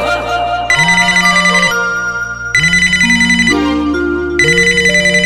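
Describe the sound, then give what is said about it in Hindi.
A phone ringtone plays during an outgoing call: a bright, melodic tune over a steady low tone, looping three times. “फिर भी phone लगा ना उसको”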